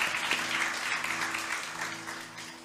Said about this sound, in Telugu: ఒకసారి చప్పట్లు కొట్టు దేవుని మాయపరుగా